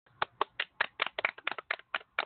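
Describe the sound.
Hands clap in a quick, fairly even series of many sharp, crisp claps, faint and with no other sound around them.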